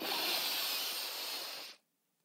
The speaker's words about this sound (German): Also, atme einmal ganz tief durch die Nase ein